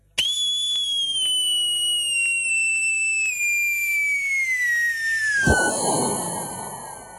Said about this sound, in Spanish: No querés tirar petardo. Grabá. No querés gastar guita en pirotecnia. Grabá.